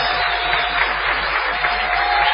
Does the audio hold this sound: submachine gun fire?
no